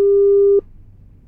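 A single steady telephone call tone holds for just over half a second and then cuts off abruptly, leaving only a faint low hum on the line.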